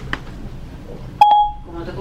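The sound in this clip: A short electronic beep from an iPhone voice assistant as it starts a phone call, a single clear tone under half a second long, with faint talk around it.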